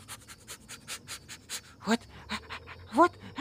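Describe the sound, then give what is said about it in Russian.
A voice imitates a dog sniffing and panting: a rapid, steady run of short breathy puffs, broken by two brief voiced whine-like sounds near the end. “сначала будем учиться нюхать и искать. Я опытная собачка и следопыт.”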